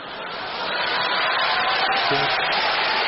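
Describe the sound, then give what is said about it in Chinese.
Applause from the audience at a Chinese crosstalk comedy show, swelling over the first second into a steady, continuous clatter of many hands. “观众热烈鼓掌，啪啪啪， 你们就鼓三下是吗？这掌声，这是鼓掌的声吗？”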